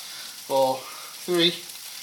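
A three-egg omelette frying in a pan, a soft steady sizzle running throughout, interrupted by two short voiced sounds.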